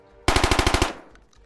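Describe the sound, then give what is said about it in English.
Israeli Tavor CTAR 21 rifle firing a rapid burst of eight loud, sharp shots in even rhythm, followed by a short fading tail. “The Israeli Tavor CTAR 21 barked like a vicious hellhound, putting holes in several of the containers and draining their contents into the soil.”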